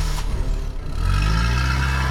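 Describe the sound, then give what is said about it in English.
Car engine revving as the driver stamps on the accelerator and the car pulls off, a low rumbling drone that swells after the first second into a louder, steady roar. “Straddling the front seat, the woman grabs the wheel and stamps on the accelerator.”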